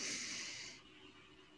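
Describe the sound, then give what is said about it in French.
A deep breath drawn in during a relaxation breathing exercise, a loud, airy hiss lasting under a second before it fades into quiet. “Alors, respirons ensemble. Ça, inspire.”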